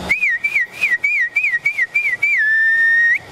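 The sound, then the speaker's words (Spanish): A herder whistles loudly to call a milk cow to the corral. A run of quick, warbling high-pitched phrases leads into one long sustained whistled note that lifts slightly at the very end. “A veces el ganado se acostumbra al silbío, ¿no? Al silbío. Por ejemplo, llegaba usted y iba a buscar la vaca de ordeño y comenzaba,”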